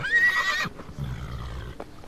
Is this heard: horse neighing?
yes